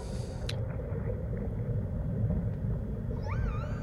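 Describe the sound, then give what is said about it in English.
Whale calls in an ocean-themed ambient music track: a constant low rumbling bed, then a wavering, gliding high call near the end. “those are whales. Yeah, it's not a didgeridoo.”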